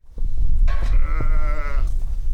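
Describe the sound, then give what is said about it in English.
A sheep in a pen at feeding time on an Arizona ranch near the Mexican border gives one long, wavering bleat at mid pitch. It rises loud above a steady low rumble of background noise and stops abruptly. “I'm standing outside the sheep pen on their new land near Arizona's border with Mexico.”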